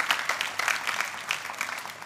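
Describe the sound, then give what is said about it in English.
A church audience claps along, many crisp overlapping hand claps forming a moderately loud, uneven patter with no voices. “Come on, let's clap it out.”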